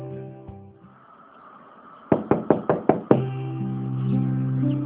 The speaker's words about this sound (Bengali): আমার ঘরে আবার নক করে ঢোকা শুরু করলি কবে থেকে?